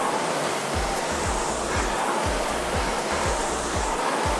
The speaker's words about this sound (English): solid connection from the front of the machine. Get all that power into the flywheel.